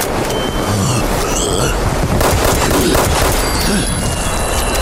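Dense video game gunfire, bursts of shots blurring into a continuous loud clatter with rumbling booms underneath, sustained without a break.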